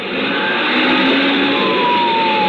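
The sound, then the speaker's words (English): Fire truck sirens wailing over a loud, constant roar of a heavy truck engine at speed, the siren tones thin and drawn out beneath the dominant rumble. “Sirens screaming, red lights flashing.”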